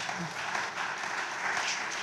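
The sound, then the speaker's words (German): Audience applause in a hall: a steady, fairly faint wash of many hands clapping, even in loudness with no distinct individual claps standing out. “Ja, gerne einen Applaus für die Studenten.”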